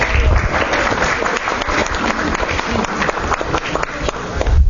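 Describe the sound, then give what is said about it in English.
An audience applauds a group of performers, loud and dense clapping that holds steady from start to finish. “Wow, let's give these guys a great hand. I'm so proud of them.”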